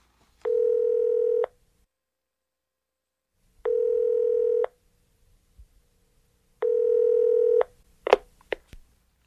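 Telephone line tones play as a call is placed: three long, steady buzzing tones of about a second each, separated by silent gaps, followed by a few short clicks at the end.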